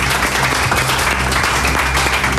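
A round of applause from a game-show audience: a dense, even wash of many hands clapping, loud and sustained without a break.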